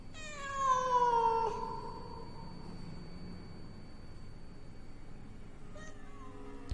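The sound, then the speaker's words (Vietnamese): A large black cat meows like a crying child at night, a long, loud, drawn-out wail that rises and falls in pitch. A quieter meow begins near the end. “Tiếng con mèo kêu cứ như là tiếng trẻ con khóc chu chéo không ngừng.”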